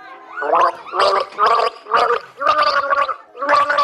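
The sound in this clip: Gargling a simple children's tune with a mouthful of water during a melody-guessing game: a string of bubbling, pitched bursts that rise and fall in a sung rhythm, loud and alone.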